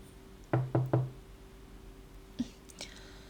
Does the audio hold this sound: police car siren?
no

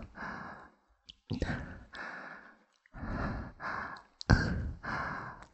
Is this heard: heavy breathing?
yes

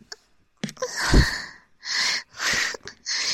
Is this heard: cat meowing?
no

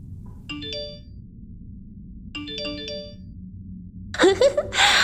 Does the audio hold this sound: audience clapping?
no

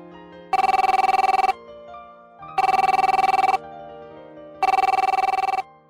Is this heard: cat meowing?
no

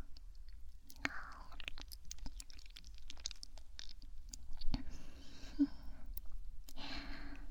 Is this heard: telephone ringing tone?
no

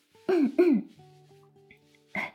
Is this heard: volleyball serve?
no

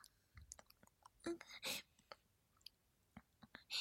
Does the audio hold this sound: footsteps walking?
no

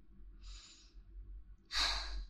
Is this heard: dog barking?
no

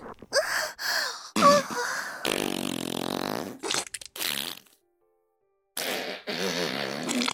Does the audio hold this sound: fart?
yes

